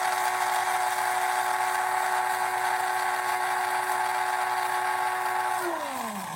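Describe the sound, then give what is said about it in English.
A coffee grinder grinds seeds in a continuous, fairly quiet high motor whine with a strong steady tone, then the pitch drops away as the motor winds down at the end. “coffee grinder and we're going to grind it for maybe 10 or 15 seconds.”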